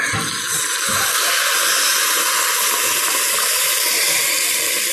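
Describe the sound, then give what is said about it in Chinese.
Boiling water pouring over fish in a cooking pan, a loud, steady gushing rush that runs continuously and evenly from start to finish. “还是加入开水，”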